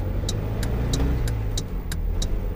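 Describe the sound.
Car engine during an overtaking manoeuvre, a steady, loud mid-pitched drone with a crisp, regular high tick repeating about eight times over the engine.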